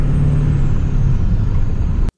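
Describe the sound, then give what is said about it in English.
A truck engine rumbles under throttle while pulling a heavy trailer at about 45 mph. The low, dense drone stays steady and loud throughout, then cuts off abruptly. “It's not under any stress, which is really surprising for the weight of the trailer. So I'm going to put some throttle down because it is 45 here.”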